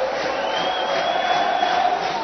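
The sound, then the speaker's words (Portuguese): Football fans of the home side roar in a stadium, a steady, dense crowd noise that holds at an even level throughout. “E agora é a torcida da Inter. Quem faz barulho aqui no Limeirão.”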